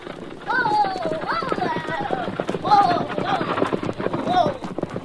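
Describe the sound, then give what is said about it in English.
Hoofbeats of a horse team pulling a buckboard wagon, many quick clip-clop strikes in a steady running rhythm, with voices talking over them throughout. “You can just make out the rider. He looks like a wagon. Yeah, it is. It's a team and a buckboard.”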